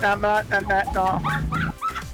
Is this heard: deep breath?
no